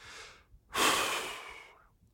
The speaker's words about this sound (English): breathe and slow down the pace of your speaking. Just take a deep breath